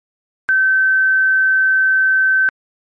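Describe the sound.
A clean sine tone at the seventh harmonic, the note G, rings for about two seconds at a fixed high pitch and even loudness, with sudden onset and cutoff and silence before and after.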